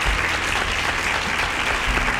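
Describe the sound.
Applause from a quiz show audience rewarding a correct answer: dense, steady clapping that fills the whole moment at an even level, with no talk over it.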